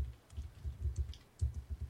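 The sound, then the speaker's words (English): Someone types a YouTube search on a computer keyboard: many faint, muffled key taps in an uneven, rapid rhythm, with a short pause midway. “If you type in, let me see if I can, if we just type in Tuck Me In.”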